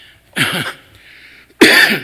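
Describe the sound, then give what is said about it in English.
Two harsh, loud coughs from a person still coughing after recovering from COVID, separated by a short pause filled with faint breathy noise, with no speech. “Excuse me, people. I'm over COVID, but not the cough still.”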